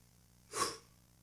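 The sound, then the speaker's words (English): A voice imitating a dying man's last breath: one short, soft, breathy exhale that swells and fades within about a third of a second, heard alone. “as he breathed his last breath”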